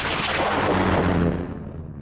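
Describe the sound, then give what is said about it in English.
A space probe launches from a spacecraft with a loud, broad roaring whoosh that holds steady for over a second, then thins and fades away at the end, with no voices. “Yes, sorry. Launching probe two.”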